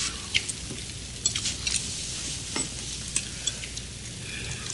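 Eggs frying, a steady hissing sizzle with scattered small pops and crackles, fairly faint and continuous throughout, with no voices.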